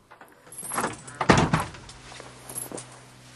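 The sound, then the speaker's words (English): A key turns in the lock of a condo door, giving a few metallic jangles and clicks. A firmer knock-like thud follows as the door opens, then softer rattles trail off. No one speaks. “Kersey hears Boggs' key in the lock and hides. Boggs steps into his condo”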